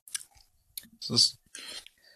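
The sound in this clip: Sipping and tasting a raspberry sour beer: a few soft mouth clicks, then one short slurping sip and a brief hiss of swallowing and breath, quiet and without talk.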